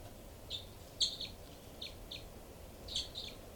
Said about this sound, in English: Both birds. Both birds there, mainly loud 318.